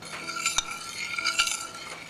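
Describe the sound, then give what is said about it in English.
Blintz batter of flour and liquid being stirred, a steady swishing with a couple of sharper utensil clicks against the bowl, moderately loud with no talk. “You always have to keep stirring every time you make a blintzel because you don't want the flour to separate from the liquid mixture.”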